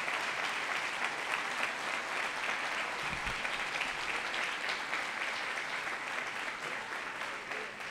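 Congregation applause fills a church during a New Year's Eve worship service: dense, steady clapping from many hands, holding at an even level for the whole stretch with only a slight easing toward the end.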